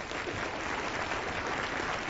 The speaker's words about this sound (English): I'm glad you're clapping